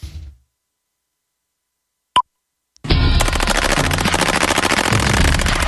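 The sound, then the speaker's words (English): Machine gun fire erupts as a dense, continuous stream of rapid loud shots after a short silence broken by a single sharp click. “Love the sound of the machine guns. Sound of freedom.”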